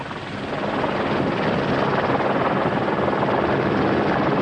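A helicopter in flight gives a loud, steady roar of rotor and engine that swells over the first second, then holds level and unbroken. No voices are heard.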